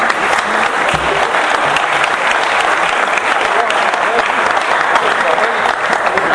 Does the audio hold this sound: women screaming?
no